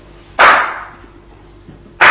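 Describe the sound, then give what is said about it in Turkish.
Knocking on wood: two sharp, loud raps about a second and a half apart, each with a brief decaying ring over a faint background hum. “tahtaya vurdum”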